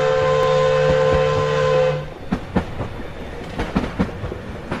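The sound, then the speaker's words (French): A steam train arriving at a station sounds a long, steady whistle for about two seconds, then rolls on with a rhythmic clickety-clack of wheels over the rails that comes in uneven bursts. “1884, le premier train arrive enfin en gare.”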